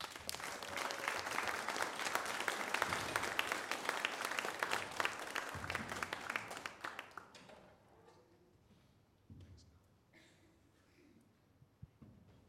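An audience applauds to welcome two guests, clapping steadily for about seven seconds before fading away, leaving faint scattered noise.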